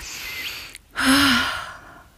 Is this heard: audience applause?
no